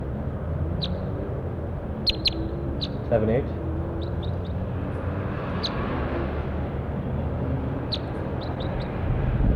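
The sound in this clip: Bird calls recorded in the field: many short, high chirps come singly and in small clusters over a steady low background rumble.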